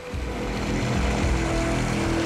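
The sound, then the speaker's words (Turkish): Water pours over a small waterfall, a steady rushing wash that stays loud and unbroken throughout with no voices. “Ha, şuna bak. Minik bir şelale.”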